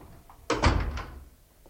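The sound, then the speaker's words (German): A door being closed, one solid thump with a brief rattling tail that fades quickly, heard alone against a quiet background. “Machen Sie die Tür zu.”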